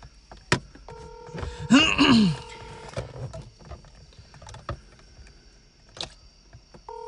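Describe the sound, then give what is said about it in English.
Telephone dialing on a speakerphone: a steady pair of dial tones holds for about two seconds amid clicks and rustling, and a brief tone returns near the end. “I'm dialing. Yeah, put on speaker.”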